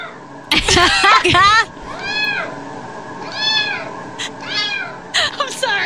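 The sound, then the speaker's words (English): Yowling of a cat in heat: a loud, wavering, drawn-out cry, followed by several shorter arched meows and a few brief chirps toward the end. “That is the sound of a cat in heat, perhaps.”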